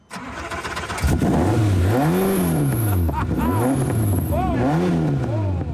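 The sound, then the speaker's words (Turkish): A TVR 4.2-litre V8 car engine revs hard, its deep growl rising and falling in a few loud throttle blips that swell and drop back between bursts. “4.2 V8 motorun TVR yapımı. 100 kilometreye 4 saniyede çıkıyor ve harika. Sesi olağanüstü. Evet, epey gürültülü olmalı. Duyabilir miyim?”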